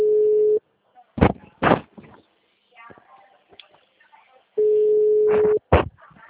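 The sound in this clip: A telephone busy signal on a call that does not ring: two long, steady, mid-pitched tones, with a person's voice and a few clicks in the gap between them.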